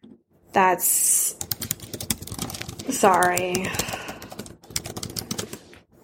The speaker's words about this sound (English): sorry, yes, I was typing for a second, but I was answering a text message again.